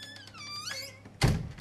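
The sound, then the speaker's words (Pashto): A house door is opened, giving a single dull, fairly quiet thunk near the end after a stretch of low background sound. “صبر کور ګته ورځم، دروازه کولاوم چې سوک دی.”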